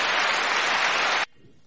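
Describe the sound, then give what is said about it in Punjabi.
Dense, hissing wash of audience applause at an International Women's Day event, loud and steady, then cutting off abruptly. “ਤੁਸੀਂ ਤਾੜੀਆਂ ਦੇ ਹੱਕਦਾਰ ਹੋ ਜੀ”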